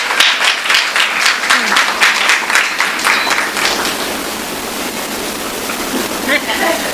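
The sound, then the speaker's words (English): An audience applauds a reader at an event. Brisk clapping is strongest at first, then thins and fades, with some voices underneath. “Let's give Ms. Jackson a hand.”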